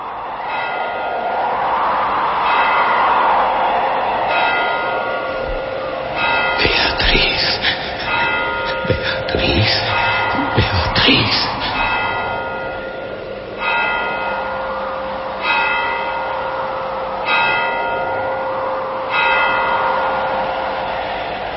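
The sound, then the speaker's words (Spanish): A clock bell strikes twelve with many slow, evenly spaced strokes. Each stroke is a resonant metallic toll that rings out over a steady low hum. “oyó entre sueños las vibraciones de la campana”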